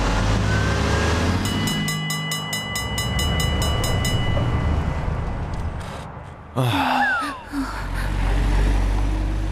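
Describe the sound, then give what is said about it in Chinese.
A truck drives past, swerving off a straight line, with a loud sustained roaring rumble and a steady droning tone through the middle, then an abrupt jolt and brief dip before the roar returns. “是刚才那辆不走直线的货车。”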